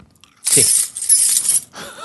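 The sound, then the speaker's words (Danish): A die rolled firmly makes a loud, bright clattering rattle lasting about a second, then a fainter scrape or tumble at the end. “Da gruller vi terningen ordentlig, da.”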